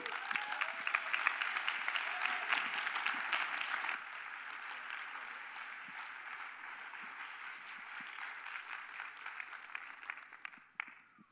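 A church audience applauds to welcome the associate pastor. Dense, strong clapping at first settles to a slightly softer, steady level, then thins and fades out.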